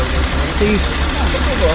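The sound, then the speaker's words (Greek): An engine running to charge a battery gives a steady low hum throughout, heard under a man's loud talking. “Ναι, φορτίζει κάποια άλλη στιγμή, κύριε, όχι τώρα. Γιατί το κάνετε τώρα, την ώρα που κάνουμε δηλώσεις. Παρακαλώ να σταματήσει η μηχανή.”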